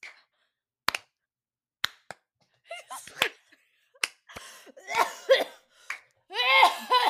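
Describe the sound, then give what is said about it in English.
A person coughs repeatedly: a few sharp, isolated bursts at first, then denser clusters of coughing, all fairly faint against near silence, with brief vocal sounds mixed in. “Sorry. Was that loud? I tried coughing away.”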